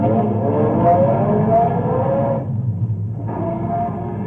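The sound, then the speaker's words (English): A car engine accelerates with a steady, loud low rumble and a rising rev, briefly dipping partway through before the drone resumes; no voices are heard. “Get in. My foot's pressing the gas.”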